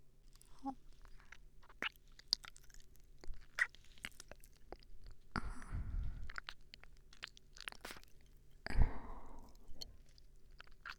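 Faint, soft chewing and biting come as food is tasted and compared, with irregular crunchy mouth sounds and a couple of longer crunching bursts midway.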